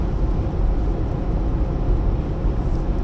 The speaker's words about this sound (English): Current speed is just under 70 miles an hour.